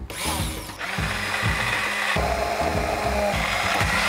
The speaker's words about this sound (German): Gut, jetzt sind alle unsere Zutaten drin und jetzt wird das Ganze aufgemixt.